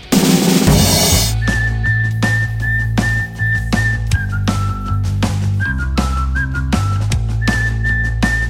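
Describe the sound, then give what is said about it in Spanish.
A person whistles a cheerful, bright tune over a band backing with a steady bass line. The melody moves in short phrases and held notes after a brief noisy burst at the start. “emitiendo ese característico sonido de la felicidad, el silbidito.”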